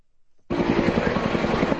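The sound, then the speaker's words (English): Firefighting helicopters flying over destructive wildfires in New South Wales, Australia: after a half-second of near silence, a loud, steady rotor roar with rapid regular chopping beats sets in and holds. “Firefighting helicopters in New South Wales, Australia. From the sky and the ground, crews are battling more than 80 destructive wildfires in the state.”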